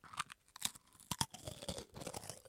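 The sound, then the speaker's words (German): Crisp crunching of crackers being eaten, with many irregular, dry bites and chews at a moderate level, sharper snaps standing out among softer grinding. “Ich esse jetzt hier einfach mal Cracker.”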